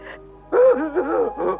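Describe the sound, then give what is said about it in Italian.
Someone is crying, letting out wavering voiced moans and whimpers in short uneven bursts. A brief catch of breath comes before louder sobbing wails. “Ti prego, non piangere più, per favore.”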